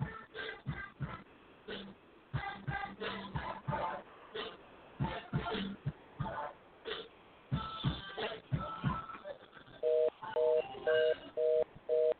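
Telephone ringback while calling a guest again: a stretch of choppy, irregular sounds gives way to a steady tone repeating in several short, evenly spaced pulses at the end.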